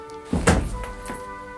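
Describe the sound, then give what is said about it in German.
A door being opened gives a dull, heavy thunk, followed by a softer second knock about half a second later, over a faint steady tone. “Wenn ich jetzt die Tür öffne und hinausgehe...”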